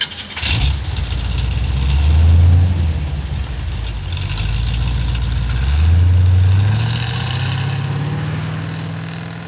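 A car engine runs steadily as the car drives on, producing a loud, low droning hum that swells twice in strength and rises slightly in pitch toward the end, with no talk.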